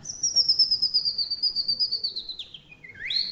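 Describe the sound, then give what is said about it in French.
Common chaffinch song in its northern dialect: a fast, rhythmic trill of high repeated notes that slowly drops in pitch, then breaks into a short ending flourish, clear and alone. “Le pinson du Nord, il va chanter « Dis-le-moi, si tu m'aimes pas, dis-le-moi. »”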